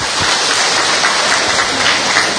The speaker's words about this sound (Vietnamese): Chúng ta cho một tràng hoa tay thật lớn để chào mừng những anh chị em ngoại đạo ấy.